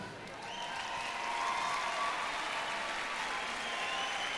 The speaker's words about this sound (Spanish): Y quiero pedir un fuerte aplauso para mi orquesta.